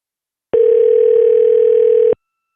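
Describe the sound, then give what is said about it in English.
A telephone dial tone plays before a number is dialed: one steady, unbroken mid-pitched hum lasting about a second and a half, starting and stopping abruptly, with no voices. “Just dial in a number.”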